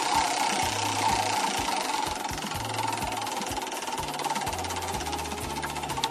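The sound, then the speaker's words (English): A game show prize wheel spins with a rapid, steady run of many mechanical ticks, with a low droning layer underneath and no talk. “let's spin the wheel for you, see what you land on.”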